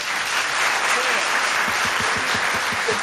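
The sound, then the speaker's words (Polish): Audience applause greets a rainstick player, a loud, steady wash of clapping that fills the whole three seconds without a break. “Proszę, brawa dla Maćka.”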